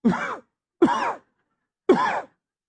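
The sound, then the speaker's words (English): Three separate human coughs, each a short harsh voiced burst with clear gaps between them, heard alone without other talk. “Go and cough.”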